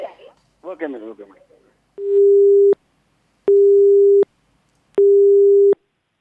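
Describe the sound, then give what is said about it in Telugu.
A telephone busy tone after a caller hangs up: three loud, steady beeps of equal length at an even pace, following a brief moment of talk. “అందుకే తొందరగా phone cut చేశారు.”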